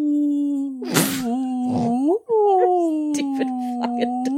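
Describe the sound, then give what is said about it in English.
A human voice imitates a dog howling like a ghost: a long, wavering, moaning wail that climbs briefly in pitch, breaks off, then resumes as a sustained, quavering howl. “One time, my dog, he heard people outside, and he started howling like a ghost.”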